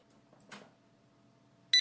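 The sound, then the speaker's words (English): A barcode scanner plugged into a PC gives one short, sharp, high-pitched beep near the end, after a faint soft click or rustle. “The barcode scanner will beep to let you know that it's ready to scan.”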